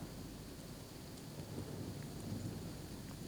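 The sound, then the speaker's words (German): Rain falls as a steady, soft hiss, faint and unbroken throughout, with no voices over it. “Es regnet.”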